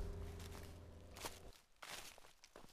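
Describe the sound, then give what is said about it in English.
Footsteps walking down a purpose-built wooden ramp in a children's outdoor learning garden: a few soft, evenly spaced steps in quiet surroundings, after a low hum that cuts off partway through. “I'm walking down the purpose-built wooden ramp that's accessible for all the children and families.”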